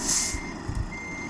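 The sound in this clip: A truck's reversing beep in a video game sounds as a single high electronic tone at the start, followed by a low engine rumble and a couple of soft thumps.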